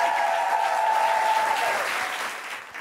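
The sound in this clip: Audience applause at a stand-up comedy show, steady and full clapping from a crowd that holds at an even level, then eases off slightly at the end.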